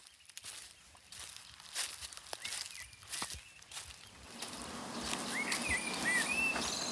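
Footsteps walk over ground into a garden, with soft rustling and crunching. A few bird chirps rise near the end.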